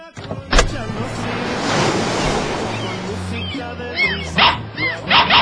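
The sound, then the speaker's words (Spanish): Dog barking in a few short, sharp bursts toward the end, following a long stretch of broad rushing noise like surf. “¡Ay, qué bonito perrito! ¡Ay, perrito, no me vayas a morder!”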